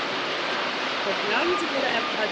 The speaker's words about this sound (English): Yeah, listen to that. That's water.